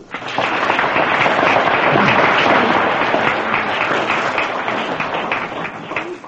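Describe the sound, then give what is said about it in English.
A crowd applauds a Mexican orchestra with steady, loud clapping that swells in quickly, holds for several seconds and eases slightly at the end. “Let's give them a hand for bringing the Mexican orchestra from Mexico here.”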